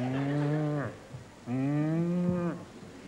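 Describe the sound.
Cattle moo twice in a dairy barn on a farm with mechanical milking. Each moo is a long, low, steady call of about a second, separated by a short pause, with no voices.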